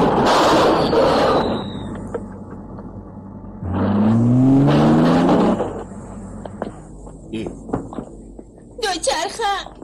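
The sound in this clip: Old Saab car driving in reverse gear: a loud engine whine rising in pitch for about two seconds, between bursts of noise and scattered knocks.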